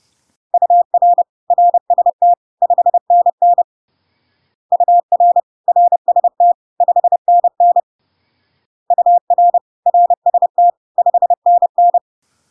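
Morse code tones send the signal report UR RST 599, abbreviated 5NN, three times: a steady mid-pitched beep keyed in short and long elements, in three evenly spaced groups separated by brief pauses.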